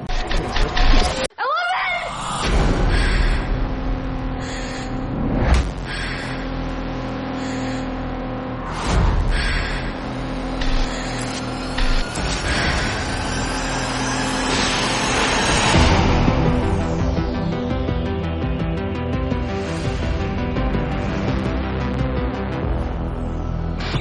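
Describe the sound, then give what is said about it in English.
Stranger Things trailer audio, loud and busy, with roaring and revving car engines, passing vehicles and bursts of screaming over dense, dramatic sound. “And there was a Stranger Things trailer.”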